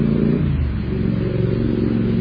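Motorcycle engines rumble steadily outside during a church sermon, a low, continuous drone with slight fluctuations in level and no pauses and no voices.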